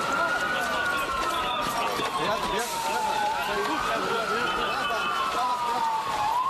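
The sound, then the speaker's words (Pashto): Ambulance sirens wail as the vehicles carry wounded people to hospitals after a suicide bombing at a wedding near the Syrian border. A loud siren tone rises and falls in a few slow sweeps over a steady wash of broad noise. “دا د هغه امبولانسونو ژغونه دي چې د غازیان تا په سیمه کې زخمیان روغتونونو ته انتقالوي.”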